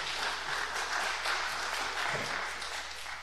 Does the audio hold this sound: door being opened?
no